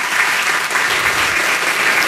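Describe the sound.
Audience applause during a speaker's talk, a steady, dense wash of many hands clapping that stays even and fairly loud throughout, with no voices over it.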